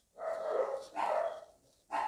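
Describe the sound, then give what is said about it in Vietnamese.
A dog barks three times in drawn-out, moderately loud calls, the last one cut short, with nothing else around it. “Ví dụ bây giờ mình nghe cái tiếng chó sủa”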